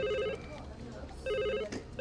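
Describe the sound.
A telephone rings in two warbling bursts separated by a short gap, over a steady low background murmur.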